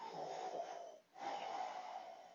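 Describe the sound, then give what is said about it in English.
Darth Vader's mechanical respirator breathing from Star Wars: a long, raspy, hissing inhale, a brief pause, then an equally long, raspy exhale, steady and heard alone. “Darth Vader is always going to be that popular villain that everybody going to love. It's just that when you hear that breathe,”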